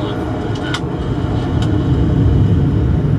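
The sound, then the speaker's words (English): A Concorde jet airliner at full power for takeoff, heard as a dense, deep engine roar that swells louder partway through and then holds steady. “At this point, with Concorde at full power for takeoff, you're basically pushed so far back into your seat”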